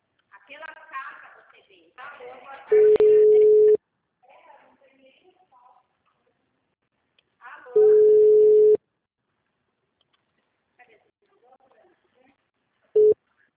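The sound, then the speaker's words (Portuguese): Ringback tone of an unanswered telephone call before voicemail: two long, steady beeps and a clipped third, separated by long gaps in which a person talks. “Deixe sua mensagem na caixa postal. Daí, eu liguei 3 vezes, não atendeu, tá?”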